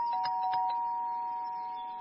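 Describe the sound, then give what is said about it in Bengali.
A doorbell rings with a sustained electronic tone. A few soft clicks mark its start, then the tone holds steady and fades slightly over about two seconds. “সেই সময় doorbell বাজল।”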